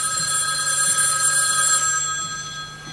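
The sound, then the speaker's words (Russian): A telephone rings steadily, its line placed to a speaker to call a pharmacy, a bright electronic tone with stacked harmonics holding constant for about three seconds, loud and alone without any talk. “А затем поднесли трубку к колонке и позвонили в эту аптеку.”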